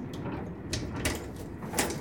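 A train toilet door being unlocked with a square key and opened: three sharp clicks and clunks spread over two seconds above a low, steady rumble.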